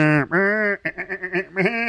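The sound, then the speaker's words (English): A person imitates a sheep bleating, voicing a long, wavering 'baa', then a quick run of short pulsing bleats, then another sustained bleat, fairly loud and alone. “I don't know if making sheep noises helped there.”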